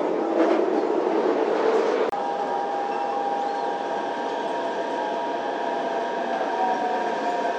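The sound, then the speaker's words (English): A metro train pulls into Shahe station, a steady low rumble with a sustained humming whine and one sharp click partway through, continuing evenly to the end. “沙河站到了。 We are arriving at 沙河 station.”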